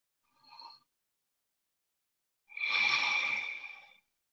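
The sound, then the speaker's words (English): Deep breathing during a guided loving-kindness body scan meditation: a short soft inhale, then after a pause a long, breathy, sighing exhale, alone in quiet. “We might take a few deep breaths as we did this morning.”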